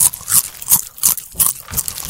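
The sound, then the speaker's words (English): Crunchy chewing from a person eating close to a microphone: a steady run of loud, crisp crunches and bites, repeating about every third of a second, with no talk. “He's eating now.”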